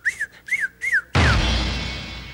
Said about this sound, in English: Here in the city, cousin, we do not whistle and shout at the ladies.